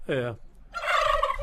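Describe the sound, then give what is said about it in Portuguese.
A turkey gives a short, falling call, then after a brief pause launches into a rapid, rattling gobble that carries on to the end. Both are clear and fairly soft, with no talk. “Olha o peru aí, solta o peru.”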